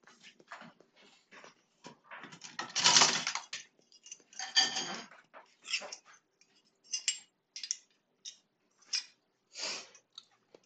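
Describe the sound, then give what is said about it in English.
Metal forks are scraped clean in a kitchen while cookie dough is being made. The sound is many short, quiet, scratchy strokes in an irregular rhythm, with brief pauses between them. “Scrape off these forks”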